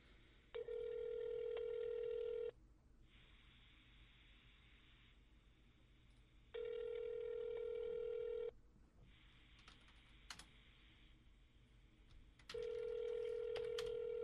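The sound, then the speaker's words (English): Ringing tones play through a telephone line on a call placed to a bar in Hoboken: three steady ring tones, each a few seconds long, with quieter tones between them. “I'm calling them right now. I'm going to ask them if they know who David is.”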